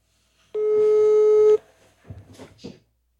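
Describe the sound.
A telephone rings while someone calls a friend: a single steady ringback tone lasts about a second, then cuts off. A few brief, faint sounds follow in the quiet.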